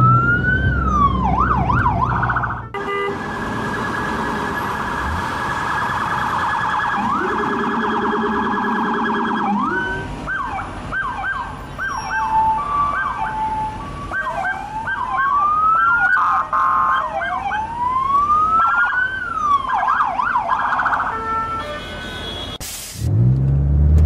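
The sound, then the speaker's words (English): A police car siren wails loudly on its own, its tone sweeping up and down in repeated rising and falling cycles with a steadier tone in the middle, and no talking. “Police car.”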